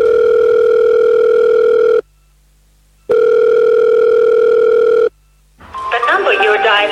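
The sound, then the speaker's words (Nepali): Ringing tone of an outgoing telephone call: two long, steady, even-pitched tone bursts of about two seconds each, separated by a second of silence, followed by a voice and other sounds. “एकपटक मैले phone गरेर हेर्छु है त।”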